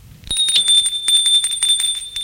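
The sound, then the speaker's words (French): A doorbell rings at a front door: a bright, high metallic tone starts suddenly and keeps sounding, with a rapid rattling pulse of strikes running beneath it for about two seconds. “Gilles sonne à la porte d'entrée.”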